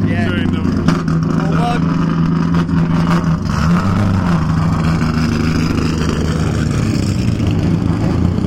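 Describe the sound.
A Westminster race car engine firing up at a race meeting, a steady low rumbling drone that runs continuously beneath people talking.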